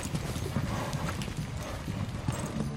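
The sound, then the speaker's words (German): A rider's horse clip-clops away at a steady, rhythmic pace, hooves striking continuously throughout against a dense, noisy background. “Warum reitet Papa so plötzlich weg?”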